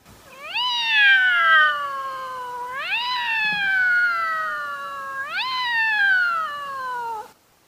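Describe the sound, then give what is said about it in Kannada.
Two cats fighting on school grounds, with three long, drawn-out yowls, each sweeping sharply up in pitch and then sliding slowly down. The calls are loud and alone, with no talk. “ಶಾಲೆಯ ಆವರಣದಲ್ಲಿ ಬೆಕ್ಕುಗಳೆರಡು ಜಗಳ ಆಡುತ್ತಿದ್ದ ಕ್ಷಣ”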